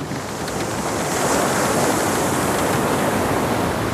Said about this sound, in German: Erst kommt der Sturm, dann die Wellen.